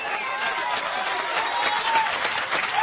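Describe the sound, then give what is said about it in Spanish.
Dense applause and clapping from an audience in a church, a steady wash of many hands that holds at even loudness throughout, with scattered voices calling out faintly underneath. “Todavía, ay Dios mío, yo voy a aplaudir por usted en esta noche.”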